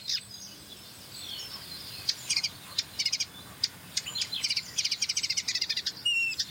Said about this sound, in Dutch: Boertje. Een boertje is boerenzwaluw.